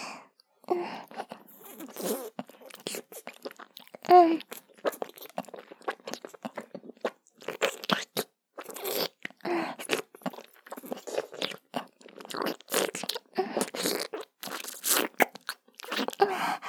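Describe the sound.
Biting and chewing juicy food produce wet, crunchy bursts, many short bites and chews in an uneven rhythm, fairly loud and close with brief silences between them.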